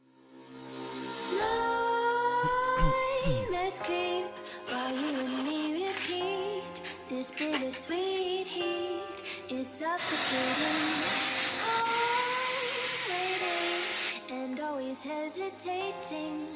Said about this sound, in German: Moment, was zum Teufel ist das? 40.000 RPM Lego Motor.